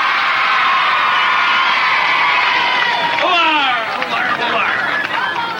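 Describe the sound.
Loud cheering from a crowd welcoming a band's arrival at a pop roadshow, with high-pitched shrieks and children's shouts sustained for the whole stretch, swelling into excited squeals partway through.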